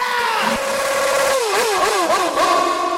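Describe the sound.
An engine revs hard, its steady mid-pitched drone swooping up and down several times in quick, wavering surges during the second half.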